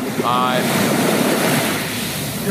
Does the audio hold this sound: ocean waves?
yes